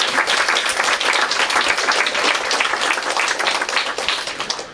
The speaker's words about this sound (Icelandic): Klapp fyrir ykkur, sjálfboðaliðar.